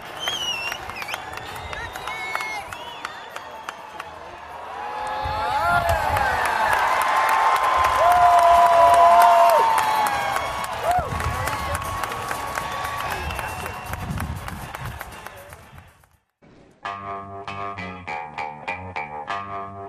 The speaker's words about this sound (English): So here's a little sound from the Rockies-Reds baseball game we attended. The Rockies pulled out the win in 12 innings.